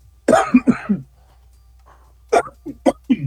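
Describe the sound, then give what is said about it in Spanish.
A person coughs with a lingering cough while recovering their voice, in two separate bouts of harsh, throaty bursts in quick succession, divided by a short quiet gap. “me queda solamente esta tos ahí que de pronto se presenta”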